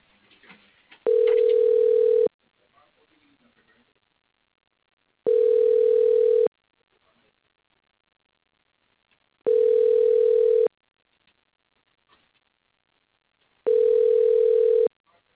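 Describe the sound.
Telephone ringback tone while a call is transferred: four steady single-pitch tones, each just over a second long, separated by roughly three seconds of near silence.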